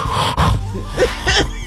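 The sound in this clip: A voice imitates the heavy breathing a pastor made during wedding vows on a video: a few loud, rasping, wheezy breaths in and out in quick succession.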